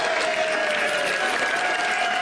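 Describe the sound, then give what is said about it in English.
An audience claps and cheers for children after a morning service, a thick, continuous wash of hand claps with cheering voices running through it at a steady level. “So should we give them all one big massive cheer and round of applause?”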